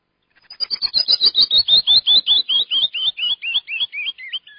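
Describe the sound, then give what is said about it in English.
A canyon wren sings a frequency-sweep song at normal speed: a long cascade of many clear whistled notes, gradually slowing and falling in pitch, loud and alone. “This guy is doing some frequency sweep that is really breaking up stuck energy in us.”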